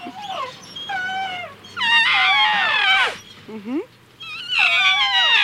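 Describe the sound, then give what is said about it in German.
Young elephant calf crying for its mother: a series of loud, high, wavering squeals, several sliding downward in pitch, with short breaks between the calls. “Der Elefant, der flötet auch. Oh, ja süß, der kleine Elefant, der schreit sicher nach seiner Mutter.”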